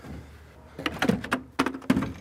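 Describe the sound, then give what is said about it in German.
A small wooden window hatch in the wood-shingled onion dome of a church tower is opened, giving several irregular, fairly faint wooden knocks and clunks with a slight creak. “Da ist das Guckerl, das kann man eben aufmachen.”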